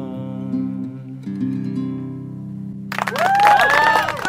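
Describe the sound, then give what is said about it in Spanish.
Audience applause breaks out after a held, sung note ends, with brief, lively clapping and some cheering. “Aplausos para Ernesto.”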